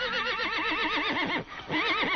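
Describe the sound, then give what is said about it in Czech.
A horse gives a loud, continuous whinny with a strongly trembling, wavering pitch, dipping briefly before a final shaky burst. “Ještě, že alespoň tebe mám. O, Falado, věrný koni.”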